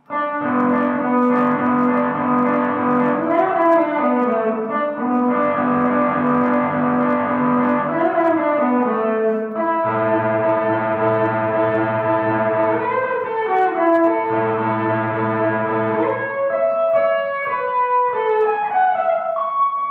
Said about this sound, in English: Okay, and if you combine everything together, we can achieve some like leading guitar sound. Ready for solos.